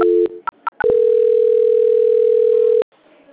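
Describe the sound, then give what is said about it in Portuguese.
Telephone call transfer tone on a phone line: a few short beeps, then one long steady tone lasting about two seconds, heard alone without talk. “Eu vou transferir de novo que não foi, tá? Tá, ok. Transferência.”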